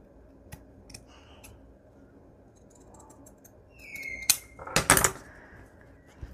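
Scissors trim a slightly overlong piece of paper for a collage journal. A short, dense cluster of sharp snips and crisp rustles comes late, after a stretch of faint ticks and light handling.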